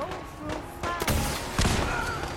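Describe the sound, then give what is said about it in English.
Missile launcher explosions blow up power armor in a video game: a couple of heavy, booming blasts land over a steady bed of dense game noise. “I'm just blowing up power armor. I'm loving my missile launcher. This is working incredibly well.”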